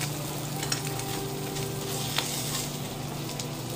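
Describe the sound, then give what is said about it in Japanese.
Fried eggs and sausages sizzle in a pan for breakfast, a soft, steady crackling hiss with a couple of small pops and a faint low hum beneath. “目玉焼きと、えー、ウインナーもねそろそろ焼けてきたかなっていう感じ”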